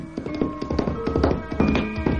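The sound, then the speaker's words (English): Hooves of a saddled horse clip-clopping as it is ridden, many quick, irregular hoof strikes in a steady, busy rhythm. “saddling my horse, rode for the alchemist's isolated home.”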